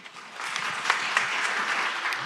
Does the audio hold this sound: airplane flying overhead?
no